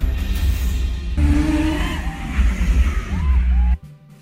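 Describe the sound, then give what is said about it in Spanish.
A McLaren sports car driven recklessly at high speed on a public road at night makes a continuous roar of engine and road noise with shifting tones, then cuts off abruptly near the end. “Este audiovisual muestra el manejo temerario de un conductor en un vehículo marca McLaren en horas de la noche en plena vía pública, violando así las leyes de tránsito, entre ellas manejar a alta velocidad,”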